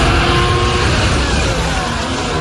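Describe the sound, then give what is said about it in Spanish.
Ferrari Formula 1 cars on the new Madrid race circuit make a loud, dense roar that continues unbroken and steady for the whole clip. “Así sonaban los Ferrari de Leclerc y de Hamilton durante el Filming Day que la escudería celebró en el nuevo trazado de Madrid”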